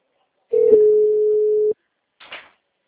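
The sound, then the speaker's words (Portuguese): A telephone ringing tone sounds while a call to a client is placed. It is one steady, mid-pitched beep lasting just over a second, followed a moment later by a short, softer noise. “Voltou, tô tentando ligar pra cliente.”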